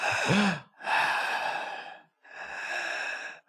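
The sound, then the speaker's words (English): A voice imitates a woman's heavy breathing: three long, airy, rasping breaths separated by short pauses, the first carrying a low voiced catch, moderately quiet and with no other sounds. “now that you're close, you can hear her breathing like that.”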